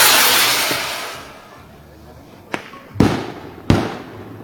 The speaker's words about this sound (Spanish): Acá pues se queman las bombas y enseguida contestan allá en San Miguel.